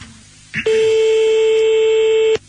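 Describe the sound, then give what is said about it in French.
A telephone tone while calling someone back: a short click, then one loud, steady electronic tone that holds for nearly two seconds and cuts off abruptly, over faint background hiss. “Alors on va le rappeler et moi je vais lui parler direct.”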